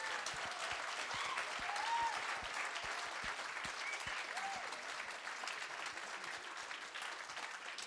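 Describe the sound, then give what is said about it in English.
Audience applause welcoming performers, a dense, steady wash of many hands clapping that holds at an even loudness for about eight seconds, with a slight swell near the start. “could you just also just put your hands together properly to make everyone feel welcome and safe in this space.”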